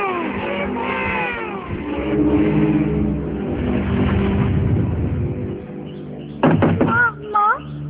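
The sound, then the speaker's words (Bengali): A child knocks on a closed door to get a mother to open it, with a few sharp, loud raps near the end over a steady, rumbling, engine-like background noise. “দরজা খোলো মা, please দরজা খোলো মা। বাবা দেখো না, মা দরজা খুলছে না, আমি কতক্ষণ ধরে দরজা ঠকাচ্ছি কিন্তু কিছুতেই খুলছে না।”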